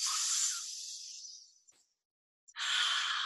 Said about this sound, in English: Peaceful breaths in and peaceful breaths out.